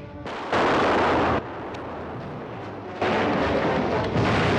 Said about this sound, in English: Travis fires the cannon, killing a Mexican rider who's charged through the gate.